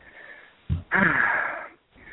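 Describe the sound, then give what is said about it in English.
Heavy breathing from a person out of breath after running upstairs: a short, low puff followed by a longer, rough, wheezy breath, with no talk. “I was downstairs and running upstairs here. Let me get my breath.”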